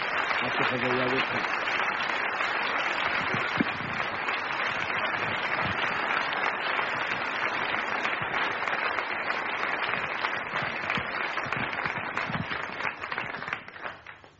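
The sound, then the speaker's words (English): Audience clapping hands in welcome at a religious gathering. Many hands keep up a dense patter at an even level, which tapers away near the end. “Put your hand together and welcome the Lord.”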